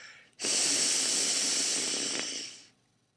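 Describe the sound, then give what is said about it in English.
A human voice produces a voiceless L sound, with breath flowing sideways past the tongue. It is a single sustained, breathy hiss of about two seconds that starts abruptly, fades gently at the end, and sounds alone. “That's the voiceless L sound.”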